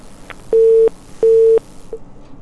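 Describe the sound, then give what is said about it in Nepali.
A telephone busy tone after a call is cut off mid-line: two steady, mid-pitched beeps separated by short gaps, with the start of a third cut short at the end, over faint line hiss. “Telephone लाइनमा phone बिचमै काटियो है”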